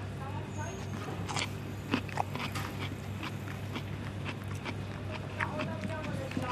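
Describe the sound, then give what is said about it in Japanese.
Crisp bites into a rice-bran pickled cucumber, heard as a few faint, sharp crunches and chewing over a steady low hum. “そのぬか漬けいただいてもいいですか、はい、きゅうりねいただきます”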